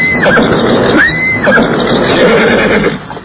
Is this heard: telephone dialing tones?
no